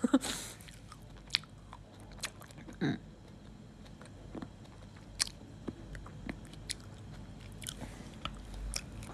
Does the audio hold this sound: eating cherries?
yes